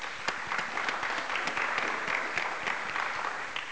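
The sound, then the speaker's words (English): Audience applause at the close of a day-long blockchain and healthcare conference session: steady, dense clapping from many hands fills the whole clip at an even loudness, with no voices over it. “So a round of applause for all the speakers.”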